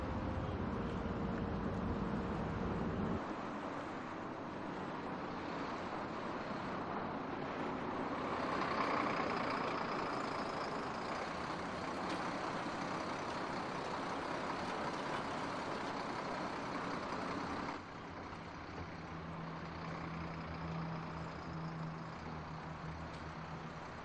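A stopped bus with its engine idling gives a low, steady rumble that holds evenly throughout, its tone shifting slightly partway through.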